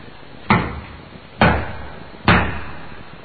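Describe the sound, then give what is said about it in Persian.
Knocking on the door of a house: three heavy, evenly spaced bangs, each sharp at the strike with a brief ringing decay. “حوصله‌اش اومد به سر، تق و تق و تق کوبید به در.”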